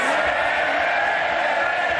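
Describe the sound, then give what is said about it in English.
Tory MPs cheering in Parliament after a put-down: a dense, sustained roar of many voices and shouts, loud and unbroken for a brief moment. “That put down cheered some Tory MPs.”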